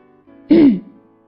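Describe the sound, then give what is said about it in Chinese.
A voice imitates a turtle clearing its throat, making a single short, voiced 'hem' with a brief falling pitch. It is loud and heard alone. “乌龟吭了一声，清了清喉咙，就唱起《乌龟之歌》来。”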